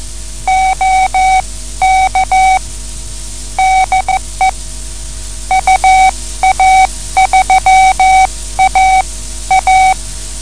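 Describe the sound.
Amateur radio Morse code greeting from a contact: a steady high tone keyed on and off in short dots and longer dashes, loud and clipped, over a constant low hum and faint static.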